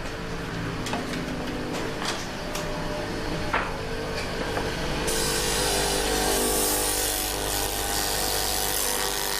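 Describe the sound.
Whirring and grinding from an electric pencil sharpener as it sharpens a pencil. A loud, steady buzz starts midway and runs to the end, after a few faint clicks.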